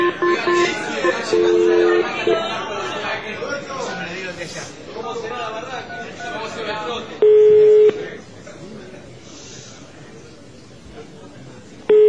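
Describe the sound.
A telephone is dialed for a call, with a few short dual-tone keypad beeps heard under people talking, followed later by a longer steady tone.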